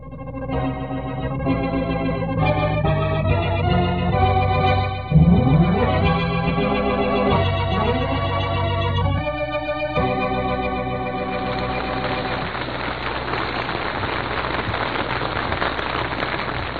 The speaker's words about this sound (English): You've been dying to play that machine gun. Go ahead. You won't make me nervous now.